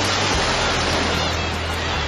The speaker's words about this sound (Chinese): 有多久没有听到大海的涛声了？